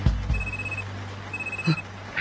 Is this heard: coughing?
no